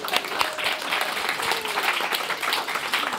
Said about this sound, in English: To our wonderful storytellers and to our wonderful audience. Give yourselves a hand.